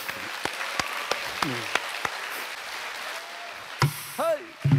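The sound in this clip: Scattered audience claps break out at a lecture on traditional Korean narrative song. The sound is faint and sparse, a few sharp individual claps rather than a full ovation, and a voice sounds briefly toward the end.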